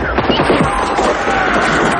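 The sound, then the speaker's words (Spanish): A rudimentary wooden cannon fires in a jungle battle between soldiers and Guaraní, set among a rapid run of sharp, crackling gunfire bursts that stay loud throughout. “En la jungla, soldados y guaraníes siguen batallando. Disparan el rudimentario cañón.”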